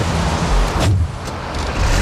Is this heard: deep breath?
no